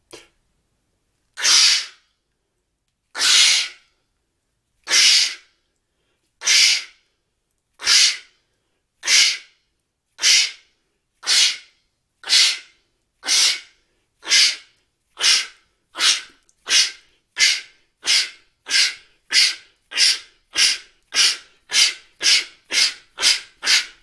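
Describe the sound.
Rhythmic breathy 'ksch' bursts imitate a steam locomotive in a voice exercise done with diaphragm tension and swinging arms; many sharp hissing exhalations start slow and speed up steadily into a rapid chugging pattern.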